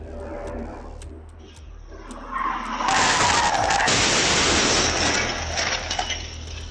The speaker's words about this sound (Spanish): Y una mujer recogía a su hijo de la escuela cuando una camioneta fuera de control y a toda velocidad se dirigió directo hacia ellos. Vamos a ver lo ocurrido.